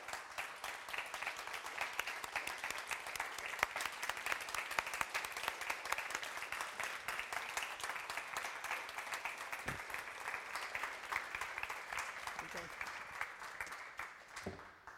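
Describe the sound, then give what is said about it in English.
Sustained audience applause during a speaker's introduction before a question-and-answer session, dense and even clapping that holds steady for about fifteen seconds before tapering off at the very end. “You can keep the clapping coming because I'd like to introduce to you Sean Gregg.”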